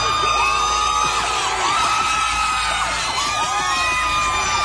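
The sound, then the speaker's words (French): Oklahoma City Thunder fans cheer players arriving home at night after game 6 in San Antonio: a loud, continuous crowd roar full of whoops, yells and shrill whistles rising over one another. “Il suffit d'écouter comment les joueurs du Thunder ont été accueillis en pleine nuit à leur retour de San Antonio après le match 6.”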